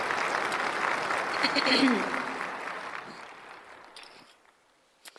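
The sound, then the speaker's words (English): A church audience at Eastside applauds to welcome a woman about to share her story. Dense, steady clapping with a brief voice over it fades gradually and dies away to near silence near the end. “So Eastside, let's give her a big welcome and a big encouragement as she shares with us today.”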